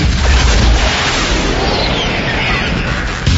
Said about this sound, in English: Now that's a rocket. Let him chase that. That is a rocket.